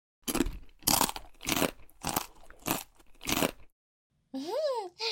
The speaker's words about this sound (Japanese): 先輩、この漬物美味しいですね。